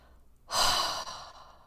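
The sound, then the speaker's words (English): A big, deep breath taken during a guided mindfulness exercise: one long, airy rush that begins after a short quiet moment, stays fairly loud and eases off gently toward the end. “And when you breathe in, take a big breath in, breath out.”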